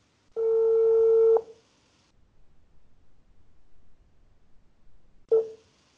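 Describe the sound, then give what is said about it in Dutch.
A telephone ringback tone sounds as a call goes through: one steady, buzzing tone lasting about a second, then a long quiet gap with faint noise, and a second tone just starting at the end. “Ik ga hem een keer bellen. Zien wat hij oppakt.”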